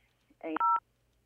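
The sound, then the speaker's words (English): A telephone tone sounds as a call is cut off by an accidental press of the hang-up button: a short, buzzy electronic burst jumps into a loud steady two-pitch beep, lasting well under half a second over a faint hum. “Uh-oh, you hung up on me.”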